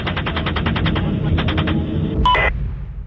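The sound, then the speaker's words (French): Gunfire as soldiers open fire: a rapid run of about a dozen evenly spaced automatic shots, a shorter second burst, then a brief sharp blip, all over steady background noise. “Ok, vous avez l'autorisation d'ouvrir le feu. Ils obtiennent le feu vert et transforment la scène en bain de sang. Allez, feu! Tire encore, tire encore.”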